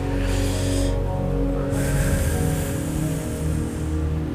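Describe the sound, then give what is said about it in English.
Deep, slow breathing in and out during a guided relaxation, long airy breaths heard over a sustained, humming musical drone. “And take a deep breath out. In.”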